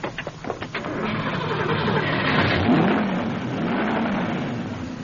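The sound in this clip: A car engine starts after its loose coil wire is pushed back in. A few quick cranking pulses give way to a steady, even running engine that holds on with no talk.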